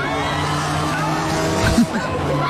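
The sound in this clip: Race cars skid and collide during a King of the Hill race at Hudson Speedway in New Hampshire. A steady roar of engines carries through, with a sharp tire squeal and a brief impact burst near the end.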